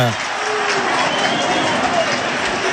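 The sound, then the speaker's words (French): A rugby crowd at a Stade Toulousain match whistles at the referee, a dense and steady wall of massed noise with thin whistles threaded through it. “Alors ça siffle contre l'arbitre, je sais pas ce qu'on réclame. C'est pas le public le plus fair play de France, hein, le Stade Toulousain.”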